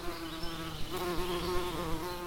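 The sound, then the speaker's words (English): A swarm of bees buzzing, a steady, layered droning hum with a sustained low tone and fluttering overtones, continuous throughout without voices. “Next up, reporter Noah Baker has been investigating how a swarm of bees hold themselves together.”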